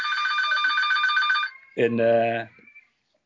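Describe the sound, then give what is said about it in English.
A mobile phone ringtone sounds as a bright, steady trilling tone for about a second and a half, then stops and is followed by a short burst of voice. “I'm very sorry about this. That was my phone, I apologize.”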